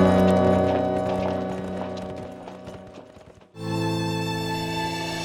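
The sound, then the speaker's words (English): Hoofbeats of a horse clip-clopping as a rider mounts and rides off. The hooves fade steadily over about three seconds, then a sustained tonal sound takes over. “The stranger grabbed his reins, swung up into the saddle, and rode out.”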